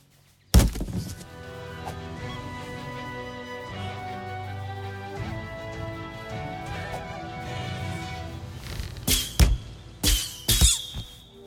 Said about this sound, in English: Nice shooting.